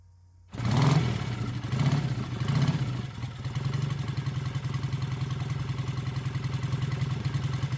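Motorcycle engine revving during a ride, with a few loud throttle bursts early on that settle into a steady, continuous low rumble.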